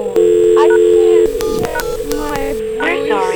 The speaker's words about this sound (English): I dialed 123 and that wouldn't get me anywhere.